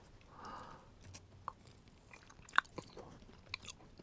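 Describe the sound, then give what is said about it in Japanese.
Faint, soft chewing and sticky mouth clicks from a spoonful of very thick plain peanut butter made from 100% Enshu peanuts in Hamamatsu, Shizuoka, with a few sharper smacks. “僕今このプレーンのピーナッツバターをまあ一さじ口に含んだところなんですけど”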